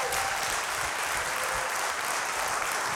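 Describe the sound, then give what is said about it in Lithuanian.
Studio audience applause welcoming a guest onto a television show, a dense, even burst of clapping that stays steady for the whole three seconds. “Laurinas Šeškus, pasitikime plojimais.”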